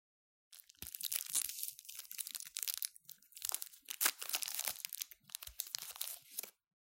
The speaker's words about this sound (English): Seeking to calm my road rage, my partner digs out a fistful of candies from her purse, as if my anger is some sort of low blood sugar issue.